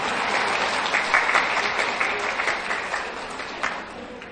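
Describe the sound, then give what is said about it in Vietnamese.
Audience applause at a Vietnamese-language talk, a sustained, dense burst of many hands clapping at a steady, fairly loud level with slight swells throughout. “Mấy bà đều là nạn nhân của cái đó, thì mấy bà vỗ tay đi, vỗ tay có phải không?”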